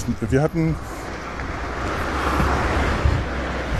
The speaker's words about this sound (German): jetzt muss ich mal kurz aufhören, solange hier noch so viele Autos laufen.